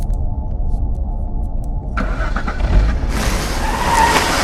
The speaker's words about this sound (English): She backs the Jaguar out of the carport, sliding up over a tree root as she steers to face the right way.